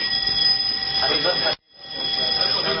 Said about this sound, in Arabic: انذار حريق يا جماعه ما تخافوش. مفيش حاجه يعني انذار حريق في ايه يعني